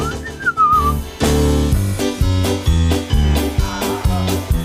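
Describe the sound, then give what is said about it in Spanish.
Mickey Mouse whistling at a ship's wheel in an old black-and-white cartoon: a brief wavering whistled phrase, then a loud, bouncy band accompaniment with punchy, evenly spaced chords. “Hace 95 años descubrimos a Mickey Mouse donde en un corto visualizadlo salía agarrado al timón de un barco mientras silbaba en blanco y negro.”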